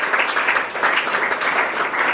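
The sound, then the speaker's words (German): Studio audience applause during a talk show, a dense, steady patter of many hands clapping at an even, fairly loud level. “Ich finde, das ist ein Applaus.”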